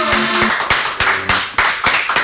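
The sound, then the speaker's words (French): Applause in a studio, with a few hands clapping in an uneven rhythm of loud sharp claps over a steady wash of noise and faint tonal sounds beneath. “Et bon, please applaudir.”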